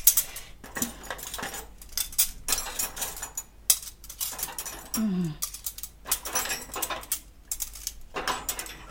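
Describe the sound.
Cutlery being handled, a spoon stuck through a fork, giving a few scattered metallic clinks and rattles, fairly faint and irregular.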